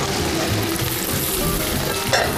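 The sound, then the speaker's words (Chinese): Sichuan peppercorns and green Sichuan peppercorns frying in hot rapeseed oil make a steady, dense sizzle and crackle throughout, with a brief brighter spatter near the end. “油热了，我们加入花椒跟麻椒两种椒， 要这种麻麻辣辣的感觉。”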